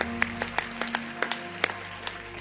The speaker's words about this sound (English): Clap your hands again.